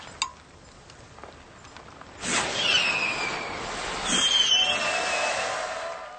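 Flares go off in two sudden hissing bursts, each followed by a sustained whistling tone that falls slowly in pitch, over a steady noisy background.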